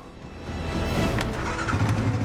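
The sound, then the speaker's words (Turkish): An off-road motorised mule vehicle, a motolimo, speeds through a forest, its engine a steady, broad rumble that swells louder after the first half second and then holds. “Yeni arazi aracı ormanın içinde hızla ilerledikçe heyecanım artıyor.”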